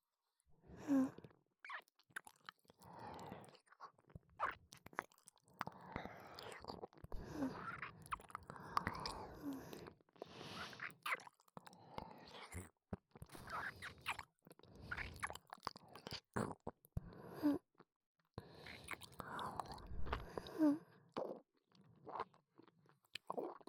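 Wet chewing and crunching as someone eats food, with many irregular bites and munches that come in clusters, fairly quiet and close, with brief pauses and faint breathy sounds between them.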